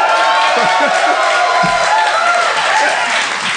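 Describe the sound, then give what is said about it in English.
Audience cheering and clapping with whoops after players kick in a flaming door in a live role-playing game. The roar is loud and continuous, with people talking over it. “That's the level we've been reduced to. They're cheering that we did one thing.”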